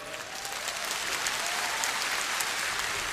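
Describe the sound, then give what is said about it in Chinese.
An audience claps throughout a show, a dense, steady wash of applause that holds at an even level for about three seconds with no break. “嗱呢拍手嘅，其实我啊唔系好知你喺边边噶吓”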